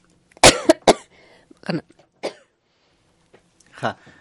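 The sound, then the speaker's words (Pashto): A person coughs harshly three times in a quick burst. Scattered throat noises and a brief voice follow. “ستاسو یو ټوخم دی”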